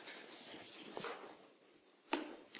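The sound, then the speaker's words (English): An eraser rubbing writing off a board during a class, with soft, quiet scrubbing strokes and two brief knocks near the end. “I'll erase this and come back to it later.”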